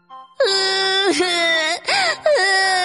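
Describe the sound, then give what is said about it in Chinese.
An acted child's crying from a children's story drama, with a little gourd character wailing in drawn-out, sobbing bursts. The wails are loud and pitched high, sliding downward at the ends, and are broken by short pauses. “小可难受极了，跑到屋外哭了起来。”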